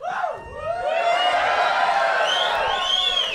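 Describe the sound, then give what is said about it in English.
An audience cheers at a late-night comedy show. Whoops and shouted voices rise and fall in pitch, swelling over the first second and then staying loud. “cheering for the concept of time. This is insane, and no, I love it. I'm pretty sure they were cheering me getting naked.”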